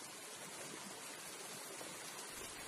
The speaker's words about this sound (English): It's the sound of a mountain stream in the middle of a national forest, filled with fresh snowmelt, rushing downhill to nourish the frozen land back to life.